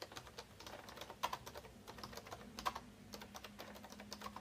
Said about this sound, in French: une fois que tu as ça, tu plus qu'à taper, donc tu as juste à appuyer sur On-Off et à commencer à taper.